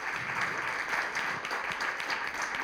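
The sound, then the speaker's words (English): Applause from an audience at a wine dinner welcomes a guest winemaker, with a steady, dense patter of many hands clapping at an even level throughout. “Everybody, please give him a hand.”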